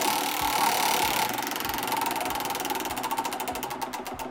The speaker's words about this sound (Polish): Panowie, zagramy, tylko jaka to będzie kategoria? Która to będzie z naszych gierek? O tym się przekonamy. Panie Maćku, proszę koło wprawić w ruch.